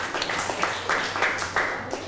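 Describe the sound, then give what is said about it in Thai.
Applause from a class of students clapping for a classmate, a dense patter of many hands that swells a few times, at moderate level. “ปรบมือให้เพื่อนหน่อยนะครับ”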